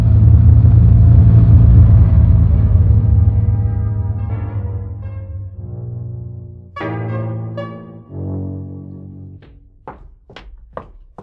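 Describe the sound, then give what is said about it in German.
Low engine rumble of a car driving that fades gradually over several seconds, followed by a couple of dull thuds and a series of sharp knocks near the end. “Dann fahren Sie jetzt in die Thomas-Mann-Straße.”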